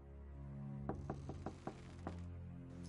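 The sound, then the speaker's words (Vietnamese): Knocking on a door gives six dull raps in a loose, uneven rhythm over a steady low drone, fairly faint against the background. “Bên ngoài cửa có tiếng người vừa gõ cửa vừa gọi tên của Song Trai.”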